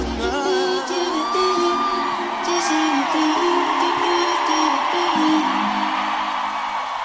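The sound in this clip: Concert audience at a Brazilian pop singer's show cheers and whoops loudly, with yells and high shouting voices over a dense, continuous crowd roar.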